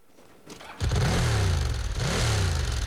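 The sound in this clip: A red motorbike's engine starts revving abruptly after a brief quiet hum. The engine then holds a loud, rough roar, and its pitch climbs in two surges.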